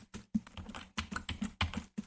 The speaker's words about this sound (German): indem wir die Windows-Taste und Edge drücken, dann Enter.